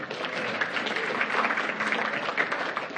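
An audience claps to welcome a guest after a prayer at a gathering, with steady, moderately loud applause lasting about three seconds.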